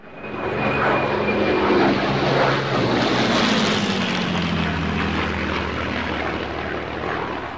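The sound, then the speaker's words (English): A loud single-engine propeller plane drones as it flies low and climbs away. Its engine note drops steadily in pitch while the roar stays heavy and continuous. “The single-engine plane rises in the air, then spins as it moves away from them.”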